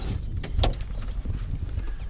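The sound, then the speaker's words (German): Car door sounds as people get out of a car stopped at a bridge in Mato Grosso do Sul, Brazil: a couple of sharp knocks and a thud early on, then a steady low rumble with faint clicks. “Wir steigen aus dem Auto aus.”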